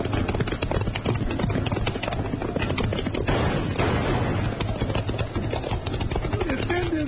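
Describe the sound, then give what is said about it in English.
Gunfire during a horseback chase after riders heading toward a canyon: dense, loud bursts of shots blend with pounding hoofbeats in a continuous, unbroken rumble throughout. “Hold your fire, Jingles. We can't hit them from here.”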